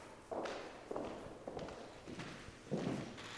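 Quiet footsteps walking from one room of a museum exhibition into the adjoining room, a few soft, evenly spaced steps.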